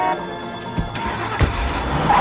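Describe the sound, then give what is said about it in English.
A car engine surges as the vehicle lurches forward on a busy street blocked by pedestrians, giving a short low rumble with a couple of brief bursts of noise over a steady background hum. “The car surges forward but is blocked by pedestrians.”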